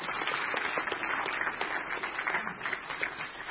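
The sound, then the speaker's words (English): A church audience applauding to welcome a family bringing up their baby, with many hands clapping in a brisk, continuous patter at a steady level throughout. “Y'all give them a hand and welcome them.”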